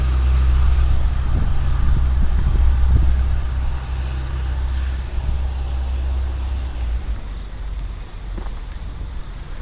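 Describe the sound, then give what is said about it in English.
A bus drives past outdoors with a loud, deep engine rumble that is strongest over the first few seconds. The rumble then eases into a lower, steady wash of traffic noise. “You can hear a bus going by.”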